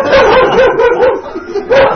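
A dog barks and yips in a few bursts with whining tones, loud and fairly continuous.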